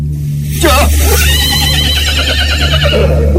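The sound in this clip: A horse neighs beside a fast-moving rubber-wheeled cart, giving a loud, long, wavering whinny over a steady low rumble, with a voice talking alongside.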